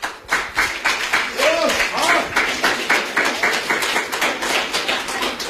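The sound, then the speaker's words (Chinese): Audience applause in a small theater as crosstalk comedians come on stage: dense, steady clapping with a crisp, even pulse that goes on throughout, and a brief voice heard over it. “上来大家抱以热烈的掌声”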